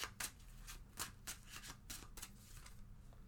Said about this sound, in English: this is a tarot card that I'm going to pull my usual Morgan Greer.